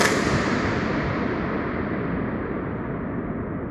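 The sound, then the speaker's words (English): A balloon pop inside an empty 2-million-gallon concrete water tank leaves a dense, booming reverberant wash. It sustains loudly across the whole stretch and fades only slowly, with the highest tones dying away first. “This is the sound when a balloon pops. Okay, so here is what it sounds like if a balloon were to pop inside of an empty 2-million-gallon water tank at Fort Worden State Park in Port Townsend.”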